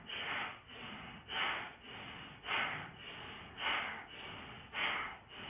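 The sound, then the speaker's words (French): Slow breathing in and out during a yoga session: steady, airy breaths with regular louder surges of exhaled air, repeating evenly with no talk. “Et puis vous allez doucement expirer, vous allez lâcher la tête en arrière, et puis reprendre le souffle.”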